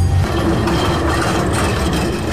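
A tram rolls along its rails on a Warsaw line, giving a loud, steady low rumble with a constant humming tone and no voices over it.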